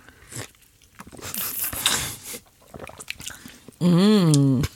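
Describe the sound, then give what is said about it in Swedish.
Ice crunches and rattles as a wooden spoon stirs an iced double espresso with milk, with short crunchy bursts among talking voices and a brief tonal sound near the end. “Vi måste ju blanda på något vis. Och träsked. Så här har vi alltså dubbel espresso, is och mjölk.”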